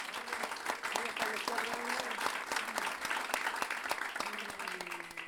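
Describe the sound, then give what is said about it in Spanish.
Audience applauding the winner of a pie forzado improvised-verse tournament, a soft, steady clatter of clapping with a voice speaking over it. “es el ganador del último torneo de pie forzado que se celebró en Pirque, en la Gempuesa, así que yo creo que se merece un aplauso.”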